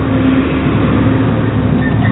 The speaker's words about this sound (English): I've recognized there's a very large something coming past here. Yes, it's a truck.